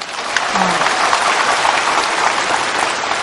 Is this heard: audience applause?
yes